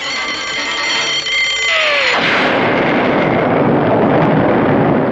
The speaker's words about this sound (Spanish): La explosión se sintió en toda la isla.